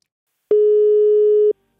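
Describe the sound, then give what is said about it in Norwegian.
A telephone line tone after dialing a customer service number: a single steady mid-pitched beep lasting about one second, alone against silence. “Ok, jeg får ringe dette telefonnummeret som står nederst her, ja da.”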